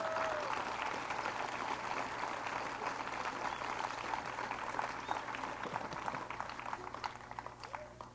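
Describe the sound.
Faint, steady applause from a folk festival audience clapping for performers at the 23rd annual festival, a soft continuous patter of many hands.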